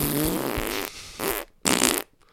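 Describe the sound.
A voice imitates a wet fart with a long, loud sputtering blast, followed by two shorter wet bursts after brief gaps.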